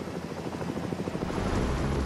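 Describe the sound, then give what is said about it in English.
Helicopter rotor noise after dropping a passenger onto a deck, a loud, steady rhythmic thumping over a broad engine roar, with no talking. “I'm safely on the deck, and the helicopter's out of here.”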